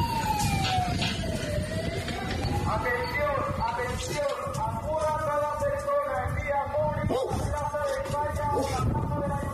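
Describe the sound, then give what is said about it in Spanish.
Emergency vehicle sirens wail during a wildfire evacuation of Pelayos de la Presa in the Madrid region, the pitch sweeping up and down over continuous traffic rumble, with voices mixed into the noise. “Y este es el sonido de la evacuación de Pelayos de la Presa.”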